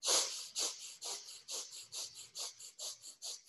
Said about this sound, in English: So the belly goes out as you inhale, it comes in as you exhale, and it's equalized.